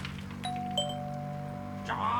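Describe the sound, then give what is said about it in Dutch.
A doorbell rings at a front door: two bright, sustained chime tones sound one after the other and ring on over a steady low hum. “Ah, de bel.”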